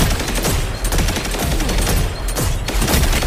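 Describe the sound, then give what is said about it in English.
Sustained machine gun fire in a first-person shooter video game, a loud, dense stream of rapid shots that runs without a break for the whole clip, with no talk over it. “This guy is getting an overshield from that stupid machine gun. I hate that machine gun.”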